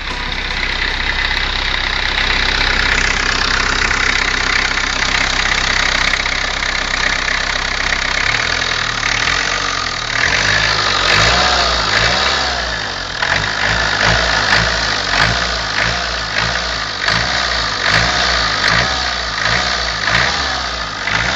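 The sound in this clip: A car engine idles with a steady drone, then revs repeatedly with rising and falling pitch during a test of a new model built in L and E versions, the latter with a five-speed gearbox and overdrive fifth gear.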